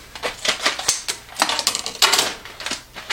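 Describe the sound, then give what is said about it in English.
A package of coffee beans is cut open, making many quick, crisp crinkles and snips in an irregular rhythm. The sounds are sharp and papery, moderately loud, with no one speaking. “I'm just gonna cut the package open here.”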